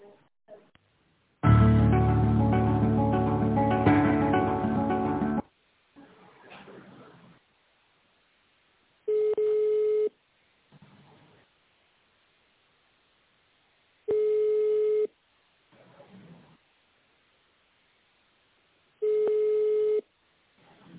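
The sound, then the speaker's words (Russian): Telephone ringback tone while waiting for a company to answer a call: three steady, even one-second beeps about five seconds apart, coming after a loud burst of music at the start. “Мы позвонили в компанию Химпэк. Ждите ответа.”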